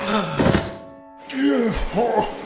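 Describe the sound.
A dull, heavy thud as a man is set down on a bed: one low, soft impact heard under and between men talking.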